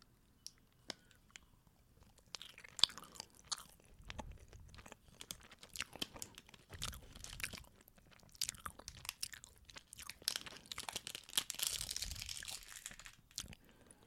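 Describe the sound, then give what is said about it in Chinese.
Crunchy chewing of a snowflake nougat biscuit made with mullet roe, many quiet, irregular bites and crackles that build in density toward the end. “闻起来就是很正常的甜甜的雪 Q 饼的感觉，这两个售价是一样的，来吃吃看。”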